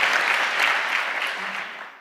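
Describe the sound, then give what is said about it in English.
A conference audience gives warm applause to a speaker, a loud, dense wash of clapping that holds steady and then fades away over the last half second. “So give her a warm applause, please.”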